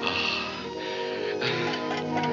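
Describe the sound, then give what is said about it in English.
A clock ticks steadily against a continuous tonal background, the ticks soft and regular. “Oh, it ticks. Look, it ticks.”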